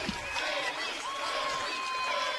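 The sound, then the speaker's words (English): Loud crowd roar from the student section at a girls' high school basketball game, cheering after a player's record 48-point night, a dense continuous wash of voices that holds steady for the whole moment. “The crowd chanting her name, the student section.”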